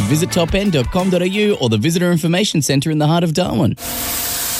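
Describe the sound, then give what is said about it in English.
A hissing spray from car detailing cuts in right after a spoken voice, a short, steady, bright burst lasting under a second at the end. “Hear that? That's the sound of your car getting the top-end car care treatment.”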